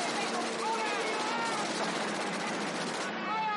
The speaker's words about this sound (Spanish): uno de sus compañeros asoma por la parte superior y comienza a disparar a los soldados. Estos responden al ataque con sus metralletas, pero son abatidos antes.